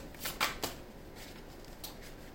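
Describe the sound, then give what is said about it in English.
Tarot cards being shuffled by hand, heard as a few brief, soft papery riffling bursts, the strongest grouped near the start, with no talk over them. “Let me go ahead and take some cards right quick.”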